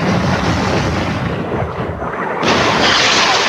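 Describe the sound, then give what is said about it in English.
Deep, booming explosions from Allied bombing in the Gulf War, with high-explosive bombs up to 15,000 pounds and cluster bombs, merge into a continuous heavy rumble that surges louder toward the end. “Allies dropped bombs ranging from 15,000 pound monsters filled with high explosives to small but lethal cluster bombs.”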